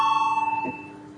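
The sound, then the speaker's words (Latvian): An electric bell rung in a parliament chamber to call a vote: a steady, bright ringing tone with a fast pulsing flutter that drops somewhat in level partway through and carries on more softly. “Lūdzu zvanu.”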